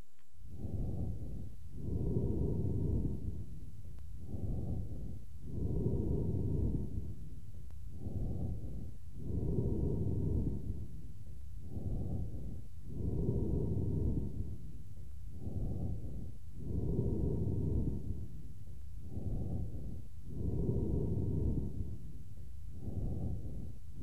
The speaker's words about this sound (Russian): Прослушайте амфорическое дыхание, записанное у больного с крупным абсцессом левого легкого.